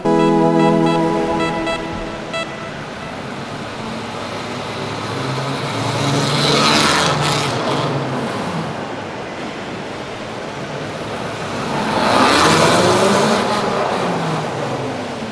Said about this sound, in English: So right now the bike is active. It is live, it can move. So remove it from the center stand and just ride.